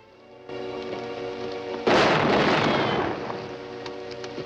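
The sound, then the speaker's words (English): A single gunshot fired across a hillside in a radio drama: a sudden, loud crack that rolls away in a long decay over a sustained musical backdrop. “MacIver and his men are in position, scattered across the hillside. Someone takes a pot shot at where Johnny's hiding.”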